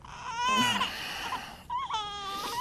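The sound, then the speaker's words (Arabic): A baby girl cries hard, in two long, loud wailing bursts with strained, high-pitched tones and a brief break between them. She is a sick infant who has cried nonstop and eaten nothing since the day before. “انت كيف نايم والبنت عم تبكي كل البكي؟”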